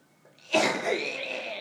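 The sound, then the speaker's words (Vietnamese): One forceful cough bursts out during guided meditation practice, trailing into a long breathy exhale; fairly faint and alone. “Cứ ho thật mạnh để những khí độc trong phổi nó đẩy ra.”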